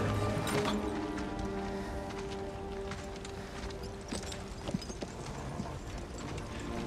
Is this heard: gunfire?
no